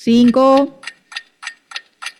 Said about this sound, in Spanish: Corre el tiempo. Tic tac, tic tac. Oiga, póngame el tic tac.